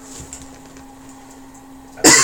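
A sharp cough or throat-clear from someone with something caught in the back of the throat bursts out loudly once at the end, after a stretch of low hum and quiet.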